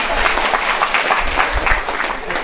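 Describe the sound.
Steady audience applause at a talk about vegetarian eating and spiritual practice, a dense, continuous clatter of many hands that holds at an even loudness for the whole stretch.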